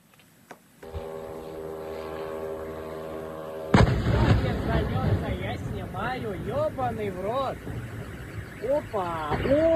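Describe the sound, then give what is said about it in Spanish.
Russian air defense intercepting a Ukrainian drone attack over Pavlovsky Posad near Moscow: a steady droning tone, then a sudden loud blast followed by continuous rumbling noise with excited voices over it. “Y estas imágenes que semejan una bola de fuego en el aire llegan desde Pavlovsky Posad, una ciudad rusa situada a unos 50 kilómetros de Moscú. Se trata del momento en que la defensa aérea intercepta un ataque con drones durante una ofensiva ucraniana”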